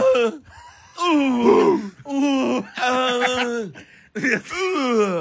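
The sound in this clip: Men's voices imitate the strained grunts and moans a tennis player makes when hitting the ball: several loud, drawn-out vocal groans in quick succession, separated by short pauses, the pitch bending within each one.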